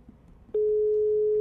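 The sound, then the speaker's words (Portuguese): Ringback tone of an outgoing telephone call: after faint background noise, a single steady mid-pitched electronic tone starts abruptly and holds unbroken to the end. “Primeiro toque. Segundo toque.”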